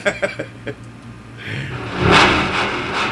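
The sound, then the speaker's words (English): Engines rev at the start of a race: a few sharp knocks open into a loud, swelling roar that surges and then holds steady to the end. “The last race, here we go, get ready to rev them up.”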